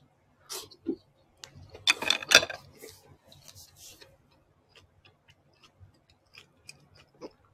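Chewing of eggplant and shimeji mushrooms: moist, crunchy bites come in a short burst, then a denser run of louder crunches, easing into faint scattered clicks of mastication with no talk.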